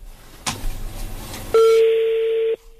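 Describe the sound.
A telephone call rings unanswered and goes to voicemail: some noise and a short burst, then a loud, steady electronic tone holds for about a second before cutting off, with no voices.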